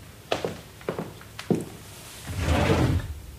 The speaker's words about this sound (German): Schau mal in die Kommode. Da müssen irgendwo Bettlaken liegen. Ich glaube, in der unteren Schublade.